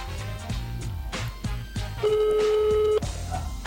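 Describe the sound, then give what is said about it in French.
A telephone number is dialed for an on-air call: a run of short, clipped keypad tones, then one steady tone held for about a second, moderately loud. “Donc du coup, on va essayer de l'appeler à l'antenne, voir si ça marche, si c'est son bon numéro.”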